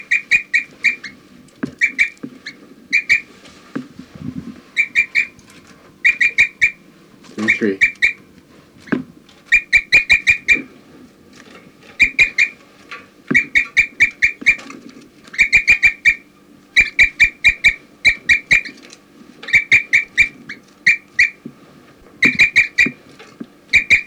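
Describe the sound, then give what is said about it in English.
A bird gives many short, high chirps and flight calls in quick bursts at irregular intervals, repeating throughout. Sharp clicks and a low background hum run underneath. “They're recording 4-3, giving flight calls.”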